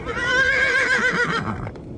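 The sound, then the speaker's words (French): Frightened horses neigh in one long, loud, wavering whinny with rich harmonics that fades toward the end. “on dirait que les chevaux ont peur. Les chevaux, on dirait qu'ils ont peur.”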